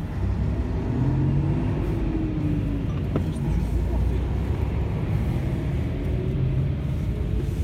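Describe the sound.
Cars drive past on a street in Almaty, making a steady, heavy traffic rumble that swells and eases slightly as vehicles go by.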